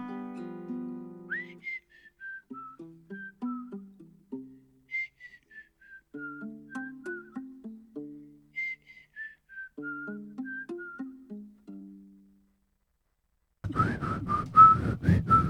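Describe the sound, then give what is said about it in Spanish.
A person whistles a song, a clear, bright melody in three repeated phrases with short pauses between them, followed at the end by a loud burst of noise. “Cómo silbaba, como la canción”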